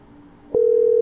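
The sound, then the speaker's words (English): A telephone tone sounds while a number is dialed: one steady, mid-pitched electronic beep lasting about half a second, starting abruptly and stopping cleanly over a faint background hum. “Let's call the number that texted us.”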